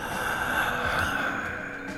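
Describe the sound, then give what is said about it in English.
A deep inhale during a guided breathing meditation: a breathy, steady rush of airflow lasting about two seconds, heard alone without talk. “Let's take one more inhale.”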